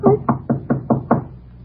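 Six knocks on a door come in an even, steady rhythm. Each rap is firm, fairly low and hollow, and no other sound is heard.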